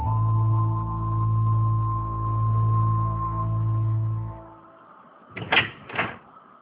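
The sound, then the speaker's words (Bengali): An old door, unopened for a long time, is pulled open with two short scraping, creaking bursts near the end, after a steady low hum fades away into quiet. “বাবা মারা যাওয়ার পর মনে হয় এই দরজাটা আর খোলা হয়নি, এ কারণেই এমন একটা গন্ধ।”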